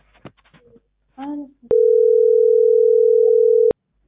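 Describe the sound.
An unanswered telephone call sounds a single steady, mid-pitched electronic tone lasting about two seconds, following brief talk and then ending abruptly.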